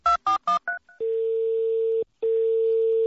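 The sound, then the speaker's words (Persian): Telephone call being dialed to a home: a quick run of about five electronic keypad tones, then two long, steady ringback tones separated by a brief gap. “در این نخستین روز نوروز به منزل آقای پرویز صیاد زنگ میزنیم تا نوروز رو به ایشون تبریک بگیم.”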